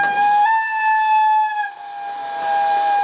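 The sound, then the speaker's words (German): A long steady high whistle tone from a historic 1928 S-Bahn train of two different series arriving at the Bernau platform. The piercing tone holds for about three seconds, dipping briefly midway before sounding again. “Einfahrt hatte eine historische Bahn, beziehungsweise 2, erklärt Robin Gottschlag vom Verein Historische S-Bahn aus Erkner”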